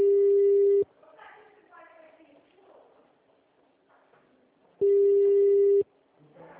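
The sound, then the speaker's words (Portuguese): Telephone ringback tone from a call being placed, heard as two steady, loud, mid-pitched one-second tones about four seconds apart, with a voice talking quietly in the gap between them. “Tô ligando lá no Consignet”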